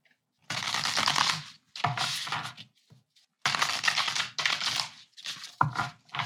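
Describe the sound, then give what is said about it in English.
A tarot card is drawn from the deck, heard as a few crisp bursts of papery rustling and card-shuffling friction, each lasting about a second and separated by short pauses, with no voices. “Let's pull another card.”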